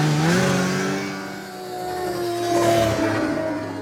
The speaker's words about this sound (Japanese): 仕方ないでしょ、今絶賛カーチェイス中よ。